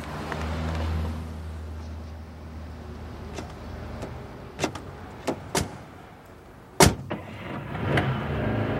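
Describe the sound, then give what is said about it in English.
A car on a short drive down the road: a low engine rumble fades early, followed by several sharp clicks and thumps and one loud knock later on, with no voices. “You're driving all crazy. It's just 2 miles down the road.”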